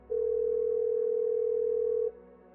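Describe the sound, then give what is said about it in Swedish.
After a number is dialled, a single telephone ringing signal sounds as one steady mid-pitched tone lasting about two seconds, clean and even, then stops, leaving faint background hum. “Du slår in numret. Signalerna går”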